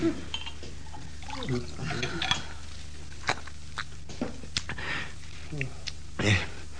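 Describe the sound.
Water is poured into a glass during a dramatic scene from Uncle Vanya. A brief liquid trickle and fill sound plays beneath spoken dialogue, with a few breaths.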